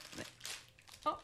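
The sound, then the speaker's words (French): A bag of biscuits is torn open with a brief, faint crinkling and ripping of plastic, a few quick rustling bursts over little more than a second. “Merci de dire que j'ai pas de talent pour ouvrir un sac.”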